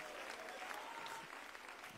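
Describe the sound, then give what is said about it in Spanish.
Steady applause from a church audience as children are brought forward during an evening service. The clapping is dense and continuous, fairly faint, with no single claps standing out. “Un aplauso, hermano, para ellos.”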